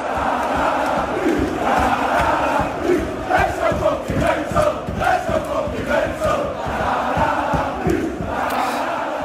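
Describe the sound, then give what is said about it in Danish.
The Leeds home crowd at Elland Road roars and chants in a loud, continuous wall of voices, with rhythmic pulses of singing swelling through the middle. “Jeg har lige lidt lyd fra Leeds hjemmebane, Ellen Road, her.”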